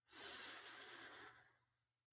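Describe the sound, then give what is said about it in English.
A single long, deep breath taken during a guided self-love meditation: an airy, soft rush that swells quickly and then tapers away over about two seconds. “Let's all take a nice deep breath to ground ourselves in this space.”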